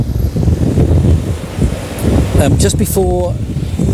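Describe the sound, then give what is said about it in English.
Wind blowing outdoors at night, a low, buffeting rumble against the microphone that gusts throughout, with a brief tonal sound near the end. “It's getting so blowy and windy here.”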